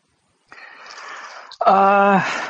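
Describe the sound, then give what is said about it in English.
A loud, breathy inhale of air lasts about a second. It is followed at once by a louder, voiced, buzzing sound that holds steady before tapering off. “Look at him inhaling all that air.”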